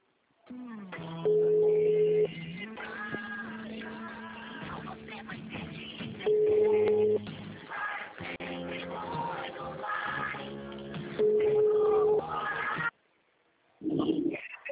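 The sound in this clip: A phone ringback tone plays over a narrow, phone-like line: a looping musical tune with three loud bursts of a steady beep-like tone, then a short gap and a brief burst of voice at the end.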